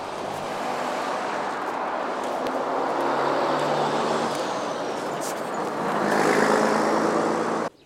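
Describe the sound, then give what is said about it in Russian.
A truck engine rumbles in a steady low drone as the truck slowly pulls up. It swells louder near the end, then cuts off abruptly as it stops. “Грузовик Глеба медленно подъезжает и останавливается.”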